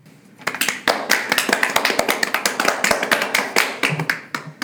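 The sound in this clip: A small group claps to welcome a guest. Many distinct, crisp claps come in an uneven, brisk rhythm after a quiet start and carry on to the end.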